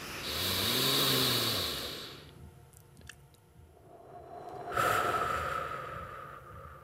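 Slow nasal breathing during a guided breathing exercise: a long, snuffly breath through the nose, a quiet pause, then a second long, airy breath. Both are soft, with no voice over them.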